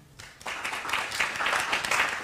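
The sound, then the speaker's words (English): Audience applause welcomes guests onstage at the Free Library, quickly swelling from near quiet into steady, dense clapping that holds for the rest of the moment. “Please welcome our guests to the Free Library.”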